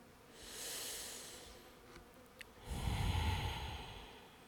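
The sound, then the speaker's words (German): A deep breath in and out during a guided meditation: a breathy, hissing inhale, a brief pause, then a longer, louder exhale with a fuller, rougher rush of air that fades slowly. “Und nun atme mit mir tief ein und aus.”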